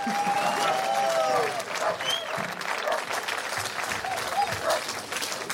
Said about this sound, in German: Und ich bitte um einen riesengroßen Applaus für Dietmar Wischmeier.